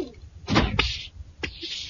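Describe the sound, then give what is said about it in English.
A door is opened during a tense flamethrower scene, with a few heavy clunks and knocks spread across two seconds, the loudest coming first. “Stand back while I open the door.”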